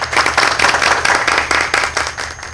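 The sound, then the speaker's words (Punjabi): An audience claps at a poetry recital, a bright, fairly loud patter of many hands that surges in repeated bursts over about two and a half seconds. “ਕੋਈ birthday party ਚੱਲ ਰਹੀ ਹੈ ਜੀ, ਕੀ ਤਾੜੀਆਂ ਵੱਜ ਰਹੀਆਂ ਹੈ”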